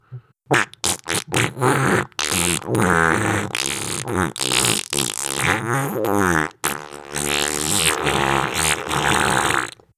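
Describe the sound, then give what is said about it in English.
A human voice imitates one long, melodic fart noise: a few short sputtering bursts give way to sustained, buzzing, wavering tones that carry on loudly, with brief breaks, for the whole stretch. “make one incredibly long and possibly melodic fart noise." I guess it might go something like,”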